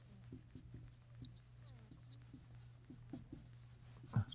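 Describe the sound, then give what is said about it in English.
Handwriting: many short, faint scratchy pen strokes in an uneven rhythm, sitting over a steady low hum, with one louder scrape near the end. “I'm not writing too well.”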